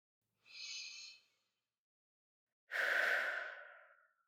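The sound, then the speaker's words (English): Slow breathing during a tension-releasing relaxation exercise: a short, soft breath, a quiet pause, then a longer, louder, airy breath that gradually fades out, with no voices. “Breathe in and out as you release that tension.”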